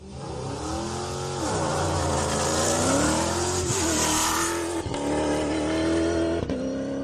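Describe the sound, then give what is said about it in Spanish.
Engine of a Toyota Hilux V8 hybrid rally car, running loud and continuous, its pitch wavering up and down as it revs, with no talk over it. “y así sonaba su motor, así arrancaba esta mañana, eso de las 9 de la mañana hora española, el Toyota Hilux de Fernando Alonso y Marc Coma”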